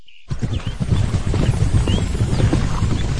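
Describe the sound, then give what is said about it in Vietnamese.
Hooves of a dozen or so horses galloping as riders pursue from afar: a busy, rumbling clatter of rapid hoofbeats that starts abruptly after a brief quiet moment and continues steadily, with no talk. “Đúng lúc ấy bỗng nghe thấy tiếng gió ngựa, mười mấy người từ xa đuổi tới”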